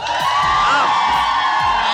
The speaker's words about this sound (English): Hey, audience, can y'all let them know that you're here?